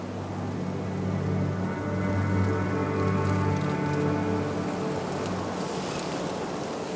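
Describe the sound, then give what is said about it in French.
Rain falls in the Pyrenean foothills as a steady, even hiss of drops on surfaces. It is soft and continuous, with no distinct events standing out. “Tel est le paysage sonore de ce piémont pyrénéen.”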